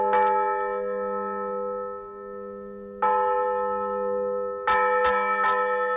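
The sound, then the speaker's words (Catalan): A church bell rings out in a small Segarra village of about 150 residents, a few clear, resonant strikes with long ringing decay, the first two spaced apart and the final ones coming in quicker succession. “Feia 80 anys que aquesta campana va sonar per última vegada en aquest poblet de 150 habitants de la Segarra.”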